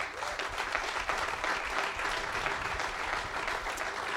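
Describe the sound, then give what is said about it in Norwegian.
Audience applause for the guests at the close of a Norwegian talk session, many hands clapping in a dense, even roar that stays steady and moderately loud throughout. “En stor applaus til våre gjester.”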